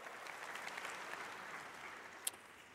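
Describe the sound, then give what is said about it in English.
Audience applause for teachers, a steady, faint wash of clapping that holds at an even level throughout, with one sharper clap standing out near the end. “It's a good place for an applause for teachers right there.”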